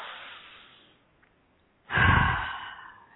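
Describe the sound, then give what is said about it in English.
A deep breath taken during a guided prayer and relaxation moment: one long, breathy, sigh-like rush of air that swells abruptly and then fades slowly, heard alone after a short stretch of near silence. “And I'd like for us to all just take a nice big breath.”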